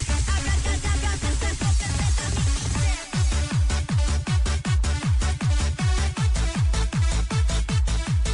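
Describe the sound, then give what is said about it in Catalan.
Máquina music, the anthem of the Pont Aeri discotheque in Catalonia, a venue closed since 2012. Fast, pounding hardcore kick drums drive it, each with a downward-swept boom. A brief break comes early on, then the beat continues relentlessly. “Podem parlar, això m'agrada molt, d'un dels temples de la música màquina a Catalunya, que tenia més doncs, un himne propi que sona així.”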